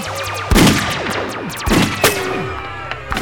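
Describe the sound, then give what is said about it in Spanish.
Gunfire exchange as a 9 mm pistol fires and guards shoot back: a few loud, sharp bursts and some fainter cracks, with sweeping whistle-like tones in between. “la 9 milímetros de nuestro héroe comenzó a bañar de plomo a los hipnotizados guardias que respondieron el fuego sin pensar en cubrirse.”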